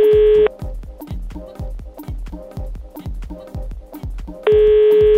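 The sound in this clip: Telephone dialing as a call is placed: a steady tone opens and closes the sequence, with a quick, evenly spaced series of short beeps in between.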